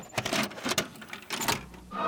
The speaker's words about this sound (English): Let's pop in the tape.